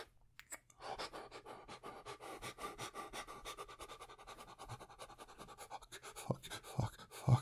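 Heavy, rapid panting sounds close to the microphone: a steady run of many quick, airy breaths at a fairly even, moderate level.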